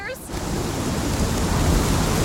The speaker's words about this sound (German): Man sieht einen Sturm. Aber was für ein Sturm? Ist das ein Zeitsturm?